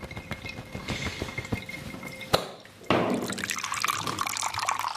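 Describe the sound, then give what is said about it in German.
Tap water runs over lamb meat as it is rinsed: a faint, uneven trickle with small splashes, a brief near-silent gap, then a fuller, louder steady stream of running water. “Spülen und abtrocknen.”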